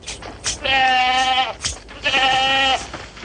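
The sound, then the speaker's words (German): A young white goat bleats twice, each call a long, loud, wavering, nasal cry, with short noisy sounds just before each bleat. “Diese junge Ziege von unbeflecktem Weiß wurde aus der Herde ausgewählt,”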